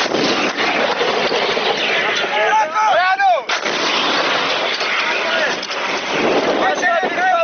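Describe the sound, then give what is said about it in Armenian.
Artillery and rocket-launcher fire in a battle in Nagorno-Karabakh, with tanks in action: continuous heavy booms and crackling reports, a sweeping whine near the middle, and wind buffeting the microphone throughout. “Ադրբեջանական կողմը նաև հրետանի, ուղաթիռներ, տանկեր եւ մի շարք այլ զինտեխնիկա, Սմերչ TOS-1 օգտագործեց։ Պաշտպանության բանակը պատասխանեց կրակով։”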